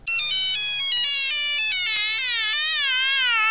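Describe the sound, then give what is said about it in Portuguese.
A mobile phone rings with a loud electronic melodic ringtone, a bright run of stepped high notes that repeats and wavers throughout, with a low buzzing hum briefly underneath. “Cagada, celular tocando. Desliga esse celular do meu.”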